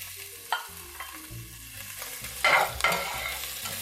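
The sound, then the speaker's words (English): Minced ginger stir-fried in hot oil alongside lightly browned garlic gives a soft, steady sizzle, broken by a few scraping stirs and louder bursts of crackling toward the end. “Here goes my minced ginger. Stir that up.”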